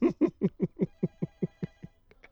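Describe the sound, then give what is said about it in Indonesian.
A telephone rings in a rapid, even trill of about eleven bright pulses, steady in loudness, with no voices over it. “Oke, kita terima telepon dulu.”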